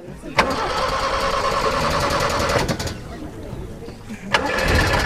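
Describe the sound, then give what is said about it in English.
Engine of a beat-up, muddy old Toyota taxi cranking over with a rough, rapid whirring for a couple of seconds, falling quiet, then starting another cranking burst near the end. “The taxi doesn't look very reliable. It's a beat-up, muddy Toyota with bald tires.”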